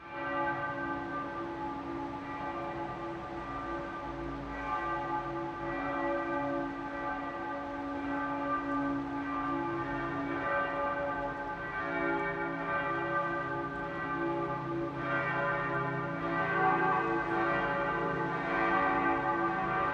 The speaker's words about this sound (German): Es ist 12 Uhr. Das Mittagsläuten kommt heute von der evangelisch-lutherischen Christuskirche im niederbayerischen Landshut.